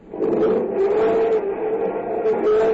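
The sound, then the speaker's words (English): A car's engine drones and its front-wheel-drive wheels spin while it is stuck in a sinkhole. The sound is a steady, continuous whine with a slightly wavering pitch, loud and unbroken throughout. “No, no use spinning the wheels”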